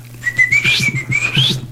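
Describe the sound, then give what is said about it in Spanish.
A person whistles to call someone to breakfast. The short, shrill, melodic whistle wavers and dips, then sweeps sharply upward at the end, over a low steady hum. “Le silba a mi papi, dice, para ya que llegó se acerque el a desayunar.”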